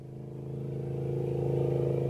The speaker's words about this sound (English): Motorboats tow water skiers across the North Sterling Reservoir